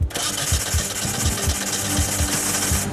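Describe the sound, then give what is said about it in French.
A 1400 cc engine in a GT car cranks on the starter without catching. Rapid, even, rhythmic pulses sit under a loud, steady mechanical whir that runs throughout. “Le moteur de 1400 cm3 va-t-il démarrer et donner vie à la GT ou pas? Fais voir. Prêt? Démarre.”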